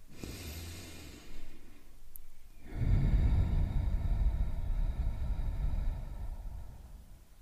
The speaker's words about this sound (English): Let's begin, like always, with a deep breath in and a deep breath out.